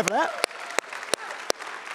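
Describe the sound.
Congregation applause in a church: dense, steady clapping that fills the whole stretch at a fairly even level, with a voice heard briefly at the very start.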